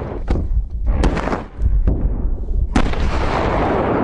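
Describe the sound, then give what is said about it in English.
Explosive charges dropped from a helicopter blast fresh, loose snow on mountain slopes for avalanche control: several sharp, heavy booms with deep low thuds, ending in a sustained loud rumbling roar. “the blasts trigger avalanche after avalanche after avalanche.”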